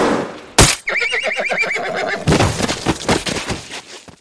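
A horse neighs after being hit by enemy gunfire in a battle, a loud, wavering whinny that follows a sharp burst, with rough clattering noises after it.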